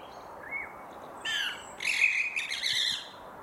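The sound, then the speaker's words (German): House sparrows chirping: a few short, high calls, then a busy burst of overlapping scratchy chirps over a faint steady hiss. “Also die Geräusche, die Spatzen machen, gehören nicht zu den Vogellauten, die wir jetzt als besonders schön, als ästhetisch ansprechend oder als Gesang empfinden.”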